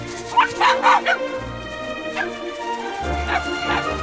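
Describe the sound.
High, sharp yips and barks from puppies racing into a forest across leaf-covered ground, several short bursts in two clusters over a steady low background tone.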